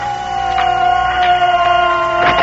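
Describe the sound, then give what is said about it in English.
An air raid siren sounds during a zeppelin bombing raid on a city, a loud steady wailing tone held throughout with a faint downward drift in pitch. “these sirens.”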